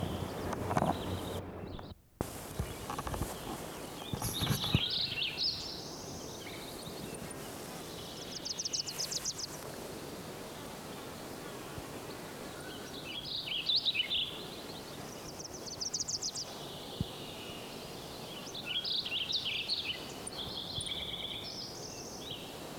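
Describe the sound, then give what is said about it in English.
Wilson's Warbler song: short, bright, chattering bursts of rapid chips repeated several times at intervals over faint, steady background noise. “One, Wilson's Warbler,”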